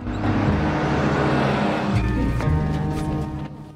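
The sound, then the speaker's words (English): A bus engine drones as the bus crosses a bridge and heads along a mountain road. The sound is loud and steady with low rumbling harmonics, shifts in tone midway, then fades toward the end. “The bus travels over a bridge and heads along a road through mountainous terrain.”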